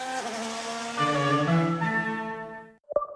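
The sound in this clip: Race car engines at a motor race at Zandvoort: a loud, steady revving whine with shifting harmonic tones for nearly three seconds, then falling silent before one short sharp burst.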